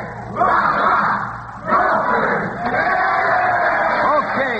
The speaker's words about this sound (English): Everybody's out to cheer on the same scholars who knocked down Northwestern last week.